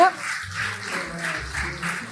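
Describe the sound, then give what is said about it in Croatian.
Audience applause at a presentation event, greeting the winning project: a faint, steady patter of clapping that continues through the whole moment, with low voices murmuring beneath it. “Evo, najveći aplauz ste već dobili.”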